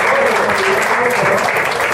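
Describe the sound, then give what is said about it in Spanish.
Applause for a commissions coordinator at a meeting: loud, dense, even clapping from many people that holds steady, with a voice faintly under it. “Que pido un aplauso para ella.”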